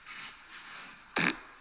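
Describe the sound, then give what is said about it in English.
A fart sound effect: one short, loud, raspy burst that stands out sharply from a low background hiss. “This is Halloween fart 2016. Okay. Yeah, let's see what we got here.”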